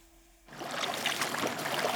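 A lone swimmer doing laps in an outdoor swimming pool: a short quiet moment gives way to continuous splashing and churning water that stays fairly steady to the end.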